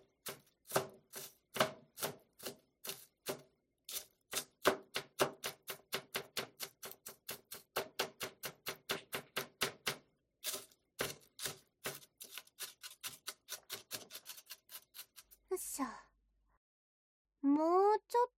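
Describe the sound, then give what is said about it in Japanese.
A knife minces onion on a cutting board in many quick, sharp taps at a fast, even rhythm. After a brief pause, a voice speaks at the end. “みじん切りはこうやって切っていくんだよ。”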